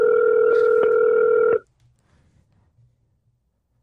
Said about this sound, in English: Our first caller in La Platica history. Ooh, what if she don't answer? Hopefully she answers. I mean, I told her. Be ready.